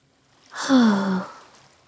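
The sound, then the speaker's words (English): A deep breath taken in through the nose and let out through the mouth comes as one breathy sigh lasting under a second. It carries a faint voiced tone that slides downward, then fades into quiet. “Take a deep breath in through the nose and breathe out through the mouth.”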